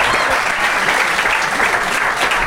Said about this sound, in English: But if you think Esther and Ben made the best case, please applaud now